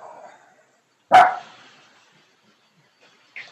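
A dog barks at the gate: one sharp, loud bark stands out alone, with a brief, fainter sound near the end.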